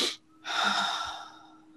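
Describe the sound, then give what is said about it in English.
Breathing exercise: a brief, sharp inhale through the nose, then after a short pause a long, steady breathy exhale that slowly fades. “You take two quick breaths in through your nose, filling your lungs to capacity.”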